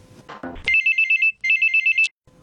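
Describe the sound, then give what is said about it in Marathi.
Telephone ringtone for an incoming call: two loud bursts of a high, warbling electronic trill, each made of rapid even pulses, with a brief gap between them and a short muffled noise before the first. “कार्यक्रमातला हा पहिला phone call घेतोय.”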